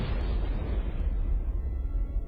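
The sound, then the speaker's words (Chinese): A blast echoing inside a water-filled cave after a detonation: a dense, loud, continuous roar whose bright upper hiss slowly dulls over about two seconds while the deep rumble carries on underneath. “导爆所爆炸后的回声还在洞内回响着，硝烟的味道也尚未散尽。”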